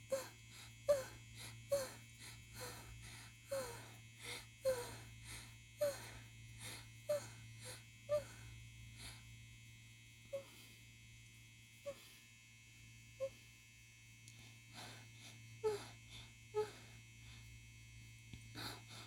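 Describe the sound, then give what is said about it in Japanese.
A vibrator rotor buzzes as a steady, low electric hum throughout, under many soft, breathy whimpers that come in an irregular rhythm. “ローターで当ててます。”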